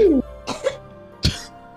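A few short, dry human coughs with a rough, throat-clearing quality, spaced apart against a quiet background after a brief tonal sound at the start.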